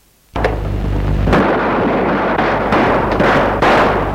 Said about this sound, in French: Sort une arme et Charles se met entre elle et lui. Florent tire.